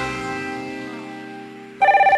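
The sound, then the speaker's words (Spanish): Telephone ringing in a radio station promo: a sustained, slowly fading chord of steady tones gives way to a loud electronic ring, a rapid warbling trill of several quick pulses. “Hay radios donde el teléfono suena, suena y sigue sonando.”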